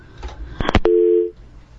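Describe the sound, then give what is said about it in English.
A telephone line tone follows a dropped call: a few sharp clicks, then a single steady low tone lasting about half a second before it cuts out. “I guess we lost the call.”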